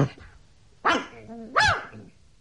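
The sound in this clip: A dog on a leash barks twice in town, two sharp, fairly loud barks with a whining, tonal edge, spaced apart and separated by quieter moments.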